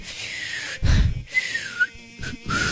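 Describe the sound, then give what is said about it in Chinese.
Whistling of a tune, a thin wavering high tone that glides and breaks off several times, joined by a brief low thump near the start. “就口哨你吹歌还真的是挺好听我吹不成歌啊”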